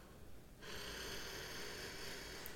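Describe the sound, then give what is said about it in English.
A deep breath drawn in during a guided breathing exercise: after a brief silence, a steady airy hiss begins and holds evenly to the end. “go ahead and take that deep breath in”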